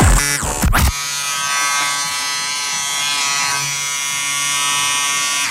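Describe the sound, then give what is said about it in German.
An electric razor buzzes steadily for about four and a half seconds, a loud, even, high-pitched drone. A short burst of rustling comes just before it starts. “Jetzt wird rasiert.”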